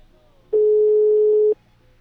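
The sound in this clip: A telephone ringing unanswered on a call: a single steady electronic ring tone lasting about one second, with near silence before and after it.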